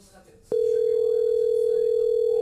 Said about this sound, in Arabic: خلني اتصل بو عبد الله.